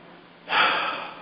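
A deep breath is taken during a guided group relaxation. It is a single soft, airy rush of breath that swells quickly and then slowly tapers off.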